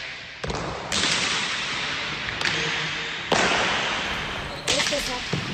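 Basque pelota balls striking the wall inside Pamplona Cathedral, five sharp, loud cracks at irregular intervals, each trailing off in a long ringing reverberation.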